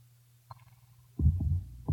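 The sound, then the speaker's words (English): A normal human heartbeat: low, muffled thumps, one faint beat followed by louder, heavier throbbing pulses. “This is the sound of a normal heart.”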